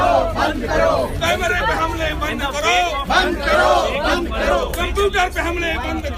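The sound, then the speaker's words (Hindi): A crowd chants slogans in protest against the arrest of journalists, many loud voices shouting together in a steady, rhythmic stream throughout. “पत्रकार प्रशांत और 2 अन्य पत्रकारों की गिरफ्तारी के खिलाफ नारे लगा रहे थे।”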